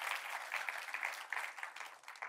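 Applause from a church audience: a dense, steady patter of many hands clapping, fairly soft throughout, with a few slightly louder surges.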